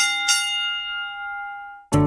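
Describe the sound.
A bell rings as a sound effect in a law firm advertisement: a clear struck tone that sustains and slowly fades, then breaks off at a sudden loud burst.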